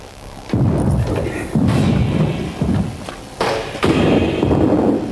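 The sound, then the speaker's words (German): Grenades burst against an energy shield in a sci-fi scene: several heavy, muffled booms and thuds, each a dull low impact with a rumbling tail, spaced irregularly across a few seconds. “Die Granaten zerplatzen am Schirm.”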